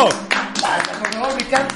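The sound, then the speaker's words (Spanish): Scattered clapping from an audience greeting a guest on a Mexican talk show. It comes as a few sharp bursts, mixed with loud, overlapping voices and shouts. “Un aplauso, ¿no? Pero sí, señor. Aplauso a Carlos Trejo.”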